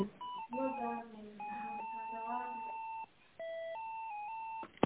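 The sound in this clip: Electronic telephone line tones play while a call is transferred. Steady beeping notes step between pitches over a narrow phone-line sound, with a brief pause partway through before the tones resume.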